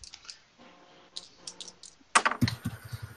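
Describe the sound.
Dice rolled during a tabletop role-playing game clatter as a quick burst of many sharp, bright clicks, after a few softer scattered taps earlier.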